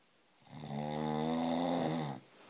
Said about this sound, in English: Shh, you're snoring.